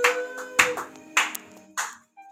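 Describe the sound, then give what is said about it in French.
A church audience applauds in a steady, roughly regular beat of sharp claps over a sustained tonal background. “Applaud, applaud, applaud, applaud, applaud for the Lord Jesus Christ of Nazareth.”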